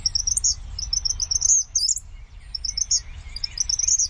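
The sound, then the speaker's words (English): An eastern kingbird calls in rapid runs of shrill, high-pitched chattering chirps, with a brief pause partway through, above a low rumbling background. “In comparison, eastern kingbirds sound more shrill, increasing in volume rather than decreasing as they continue.”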